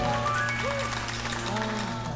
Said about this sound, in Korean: 여러분 박수 부탁드리겠습니다.